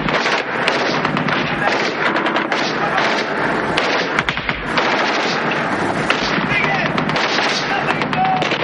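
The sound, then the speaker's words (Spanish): Gunfire from soldiers in a 1986 war action film, with dense, continuous bursts of rapid shots and sharp cracks filling the whole stretch, loud and unbroken. “Desde el otro lado, más soldados empiezan a dispararles. Se acercan poco a poco cubriéndose como pueden.”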